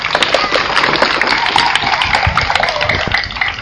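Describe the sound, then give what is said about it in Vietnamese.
Children clap their hands at a gathering led by a Buddhist nun, producing a quick, dense patter of many small claps at a fairly loud, even level. “Vỗ tràng có tay yếu quá, vỗ thật lớn lên.”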